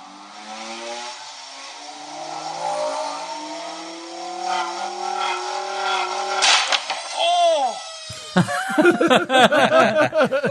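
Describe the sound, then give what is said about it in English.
A vinyl record spun past 10,000 RPM until it rips apart makes a rising whirring whine that climbs in pitch for several seconds. Sudden sharp cracks follow, then a loud burst of chaotic, warbling noise. “So they spun the record past 10,000 RPMs until it ripped itself apart. And I will play it once more just so you can hear it now that you know.”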